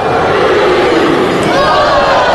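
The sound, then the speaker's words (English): Baseball fans at Dudy Noble Field chant the maroon-white cheer, a loud, sustained crowd roar with voices rising together in a droning chant that stays at full strength throughout. “Fans getting into it for the first time here, starting that maroon-white cheer at Duty Noble Field.”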